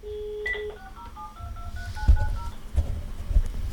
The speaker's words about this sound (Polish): I głośnik nam zadzwonił, i słuchawka. Ja zrobię to jeszcze raz.